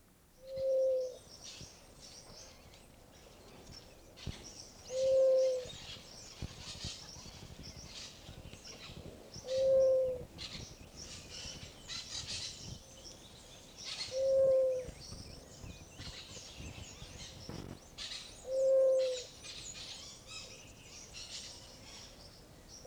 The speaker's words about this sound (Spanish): El dulce arroyo de la paloma y la algarabía de los pericos.